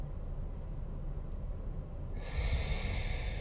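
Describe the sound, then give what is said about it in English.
A deep breath is drawn in through the nose, a faint, airy hiss that swells in the final second, with no talking. “I want to take a deep breath together. In through the nose. Hold at the top.”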